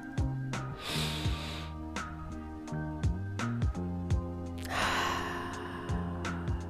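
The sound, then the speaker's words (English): A slow, deep breath in and then out, taken as a short mindfulness pause, heard as two soft bursts of airy breath noise over a steady musical backing. “So let's take a deep breath in.”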